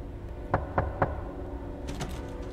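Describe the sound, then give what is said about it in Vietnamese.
Knocking on a front door: three sharp, evenly spaced raps in quick succession, followed by a few fainter taps and rustles against a quiet background. “bà Liên phải tự mình bước những bước chân nặng trĩu về phía cánh cửa chính để mở ra xem có ai đang gõ cửa. Thế rồi tiếng động ấy vẫn cứ vang lên.”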